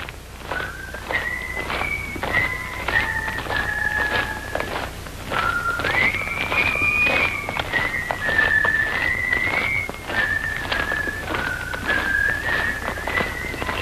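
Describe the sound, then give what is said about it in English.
A long column of soldiers, prisoners of war, marches in step while whistling a tune together. The whistled melody rises and falls over a steady, regular beat of footfalls, loud and continuous, with no talk. “One after another, the men begin to straighten up. and march in step and whistle.”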